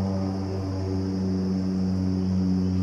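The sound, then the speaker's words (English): Airplanes flying overhead make a low, steady engine drone with a faint high hiss above it, holding even and unbroken throughout. “I swear, man, these planes, I don't know what has been up recently, but apparently there's some pilots logging some hours.”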